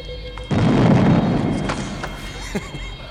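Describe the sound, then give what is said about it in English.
A pyrotechnic blast goes off during a staged space battle in a community theater show: a sudden loud boom followed by a long, fading rumble. “Community theater doesn't usually have this much pyro.”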